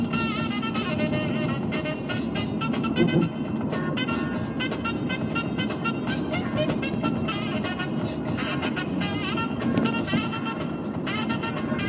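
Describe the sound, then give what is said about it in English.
Traffic on the Golden Gate Bridge: a loud, steady roar of passing vehicles and road noise that continues unbroken for about twelve seconds. “Everything's fine. We're on the Golden Gate Bridge.”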